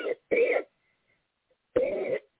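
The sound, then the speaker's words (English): Three short, harsh coughs from a person on a church prayer call, two close together and then a third after a silent pause. “Excuse me, I should have put that on mute. In Jesus' name, I had to cough.”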